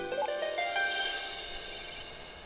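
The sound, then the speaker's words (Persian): A phone rings with a soft electronic ringtone: a melodic run of bright, high beeping notes that steps upward, then a fluttering trill repeats, all fairly faint with no talking. “بچه ها یکی داره زنگ میزنه. امیدوارم یه تیم نجات باشه.”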